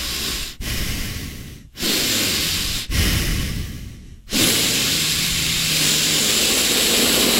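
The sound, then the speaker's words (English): Loud, heavy nose breathing into an unmuted microphone during a team meeting call: a harsh, hissing rush of air that runs almost continuously, broken by a few short pauses between breaths. “Please, everyone. Mute your mic during your team's meeting, especially nose breathers.”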